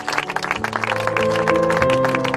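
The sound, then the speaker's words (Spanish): Applause rises after Pablo Casado's speech at a memorial event for Manuel Zamarreño in Rentería, Guipúzcoa: dense, steady clapping over sustained low tones, holding loud through the whole stretch. “Son los aplausos tras las palabras de Pablo Casado durante un acto en recuerdo a Manuel Zamarreño.”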